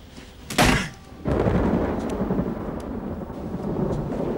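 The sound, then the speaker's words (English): A sudden loud crack of thunder, then steady rain beginning to fall outdoors by a terrace, a continuous dense hiss that holds to the end. “He looks up at the sky as rain starts to fall.”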